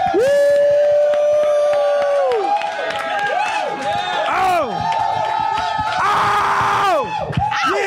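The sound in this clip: A live audience at a show recorded at the Museum of Sex cheers and screams loudly and continuously, with shrill whoops and whistle-like cries rising and falling over a dense crowd roar.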